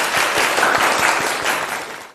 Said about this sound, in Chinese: 整体还是不错的啊，大家给他鼓掌啊。